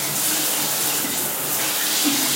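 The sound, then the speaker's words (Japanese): A running shower gives a steady, dense hiss of spraying water that holds at an even level throughout, with no voices over it. “ちょっとシャワー流します。ちょっと洗いながら話します。”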